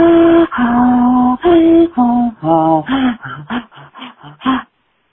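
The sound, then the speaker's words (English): A voice making the inhaled speech sound that old Scandinavians in North Dakota use: several drawn-out voiced syllables, then a quicker run of many short clipped ones that fade to silence. “And they'll do an inhale kind of a sound. So the sound on the inhale,”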